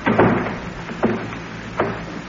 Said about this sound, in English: could I close the door, Captain? That's all right, I'll get it.